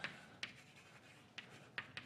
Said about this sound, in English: Let's write something on the board.